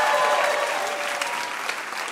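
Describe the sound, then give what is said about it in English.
Loud, dense audience applause for game show contestants after a hard round. It holds steady for about two seconds, then eases slightly toward the end. “Big round of applause for our contestants.”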